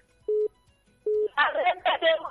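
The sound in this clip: Telephone line tones during a phone call: two short, steady mid-pitched beeps with a pause between, then a voice talking over the line.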